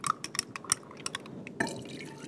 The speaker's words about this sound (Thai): ถ้าที่ติดขวดแบบนี้นะคะก็สามารถที่จะเอาน้ำต้มสมุนไพรอะค่ะผสมลงไปได้นะคะอันนี้คนเบาๆเพื่อไม่ให้เกิดฟอง